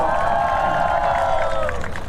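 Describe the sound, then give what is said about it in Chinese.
A crowd cheers and claps for singer Li Yugang after his song at a show. Loud, steady clapping runs throughout, with sustained shouting voices held over it. “掌声送给李玉刚。”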